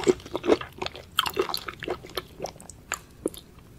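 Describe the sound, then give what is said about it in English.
Wet, crunchy chewing of squid, with many irregular bites and squishy mouth sounds. The chews come in an uneven rhythm and stand out clearly with no talking over them. “Squid number two. Ugh, it sounds like Salvador chewing on one of his fucking squeaky balls and shit.”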